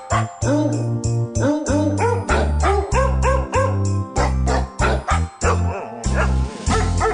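Dog barks pitched into the melody of a Christmas song: loud, repeated yaps following a steady tune rhythm over a low bass accompaniment.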